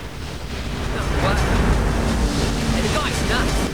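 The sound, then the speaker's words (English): A large ocean wave breaking behind a surfer paddling out: rushing, roaring surf mixed with blustery wind rumble. It swells and stays loud and continuous through the middle and end. “Bodhi paddles his board up over a huge wave and back down the other side. The wave breaks behind him, obscuring him from the view of those on the shore.”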